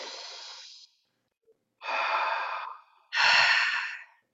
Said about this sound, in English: Good. Breathe in.